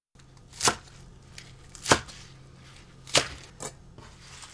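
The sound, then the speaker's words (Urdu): Knife chopping trimmed, washed spinach into 5 cm pieces during cooking: four sharp, irregularly spaced chops that stand out clearly above a quiet background. “پہلے پالک کاٹیں گے۔ پالک کی جڑیں کاٹ لیں اور پھر انہیں دھو کر 5 سینٹی میٹر لمبے ٹکڑوں میں کاٹ لیجئے۔”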